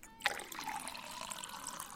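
Liquor poured from a bottle: a sharp onset, then a steady splashing trickle of liquid that carries on evenly to the end, moderately loud with no voices.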